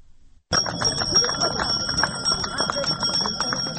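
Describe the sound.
A small handbell rings the first school bell on the first day of school, a rapid, bright, continuous jingling that starts suddenly and keeps going, with crowd murmur and voices underneath.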